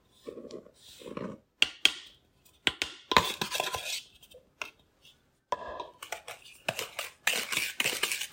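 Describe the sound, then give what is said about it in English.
Spoon stirring thick, dry cake batter as flour is mixed in, giving irregular scraping, clacking strokes against the bowl with short pauses between bursts of movement. “And we're just mixing in the flour.”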